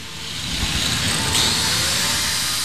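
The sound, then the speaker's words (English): A grinder smooths the edges of a fresh weld at a skilled-trades summer camp for high schoolers, giving a steady, loud, harsh rushing whine that holds evenly throughout with no voices. “I meet 18-year-old Deshaun Graves as he's using a grinder to smooth out the edges of a weld that he's just performed. There are sparks flying everywhere.”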